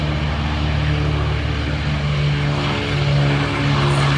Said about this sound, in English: C-130, what? I'm going to play one more clip. That was the startup, and then this is the takeoff.